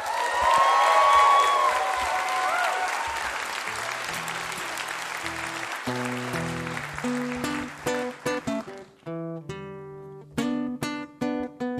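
An audience applauds to welcome a performer back to a live music show's stage. The dense, loud clapping gradually thins and fades, and clear plucked instrumental notes take over in the second half.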